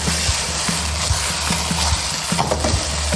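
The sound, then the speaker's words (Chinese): Starch slurry poured along the edge of a wok onto stir-fried shredded eel gives a steady sizzling hiss, with a regular series of low knocks running underneath throughout. “煸炒完了以后，就可以把碎的碗芡可以往它下里了。 哦，下的时候呢也是这个，就是锅边下哈。”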